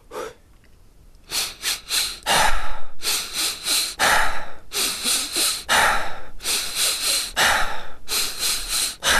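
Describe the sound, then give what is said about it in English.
Rapid rhythmic breathing exercise in which quick sharp inhales through the nose alternate with relaxed sighing exhales through the mouth, repeated in many fast cycles. The breaths are loud and airy, with no talking. “So three inhales through the nose, followed by a relaxed sigh out through the mouth. So it goes like this.”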